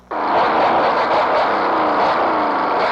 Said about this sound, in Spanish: media hora tenemos de andar con este taxi y anda fallando.